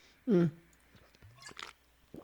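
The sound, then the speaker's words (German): A person takes a drink, giving a loud low gulp or swallow, then a few faint mouth clicks and a brief rustle. No talk is heard over it. “Ich muss mal eben was trinken. Warte.”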